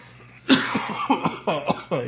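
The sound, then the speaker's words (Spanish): A man coughs into a microphone in a quick series of bursts. A sharp first cough is followed by several shorter, rougher hacks spread over two seconds, with no talk between them. “Se me quita la tos, un momento.”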